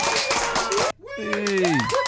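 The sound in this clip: Studio audience clapping and cheering: a dense, steady burst of applause that cuts off abruptly after about a second, then excited whoops with gliding pitch rise over renewed clapping.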